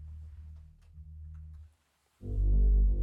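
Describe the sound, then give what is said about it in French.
An AI-extracted isolated bass track, a synthetic bass blended with electric bass: a few deep, rounded notes, a short silence, then one loud, sustained low note. “Donc voici la basse qui d'ailleurs ne rentre qu'au moment du chant.”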